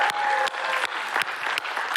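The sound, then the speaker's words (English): Applause from a church audience at High Ridge, steady, moderately loud clapping from many hands with a few sharper peaks standing out from the mass. “And for all of you watching online, we're going to give you a big warm round of applause and thank you for coming and tuning in today.”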